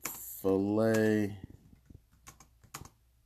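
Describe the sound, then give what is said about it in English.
Computer keyboard keys are tapped while typing a search, a short burst of sharp, uneven clicks following a brief vocal sound at the start. “Okay, so let me just type this in one more time. You know what I'm gonna type in? I'm gonna type in youngest Chick-fil-A”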